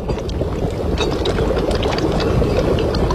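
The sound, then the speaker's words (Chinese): Water poured into a pot until it covers pieces of fish, while cooking stinky mandarin fish with fresh bamboo shoots and red chili sauce. It makes a steady, loud rushing splash for about three seconds, with no talk. “加水没过鱼肉，盖盖儿。”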